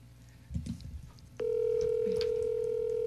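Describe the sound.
Telephone call being placed: a few soft clicks and muffled handling noises, then a loud, steady electronic tone starts abruptly and holds unbroken to the end, with no voices.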